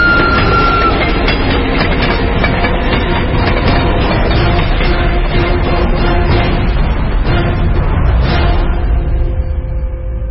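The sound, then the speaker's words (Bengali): A train passes close by in strong, stormy wind, giving a loud, continuous rumble with the rattling clatter of wheels on rails throughout. The noise stays heavy and steady with no talk. “তারপর মাটি কাঁপিয়ে ট্রেনটা আমার পাশ দিয়ে এগিয়ে যেতে থাকল।”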